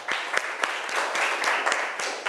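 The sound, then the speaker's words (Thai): Students in a school classroom applauding the representative of group 1, clapping together in a quick, even rhythm of accented beats over a continuous patter of hands. “ปรบมือให้ตัวแทนจากกลุ่มที่1นะคะ”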